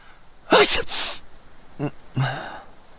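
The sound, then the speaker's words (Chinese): A single sneeze, apparently voiced by a person, comes as a sharp breathy burst followed by a second noisy burst, then a couple of brief soft vocal sounds, fairly faint overall. “窗外吹入一丝冷风，冬至打了个喷嚏，揉揉眼睛”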